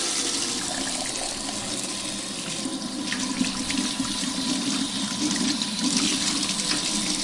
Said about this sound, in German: Ja, wunderbare, schöne Anlage, also zwei Emaille-Eimer und dann so eine schöne Messing, ein schöner Messinghahn. Da macht das Händewaschen doppelt so viel Spaß. Ja, Hände sind gewaschen.